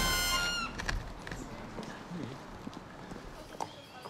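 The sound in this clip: Hooves of an Altoldenburger horse clip-clop in a loose, uneven walking rhythm, with faint scattered knocks rather than a crisp beat.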